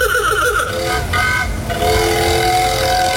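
A 1910 Model T Ford, 116 years old, runs on petrol. Its engine gives a loud, continuous rattling mechanical noise with a steady tonal hum that holds throughout.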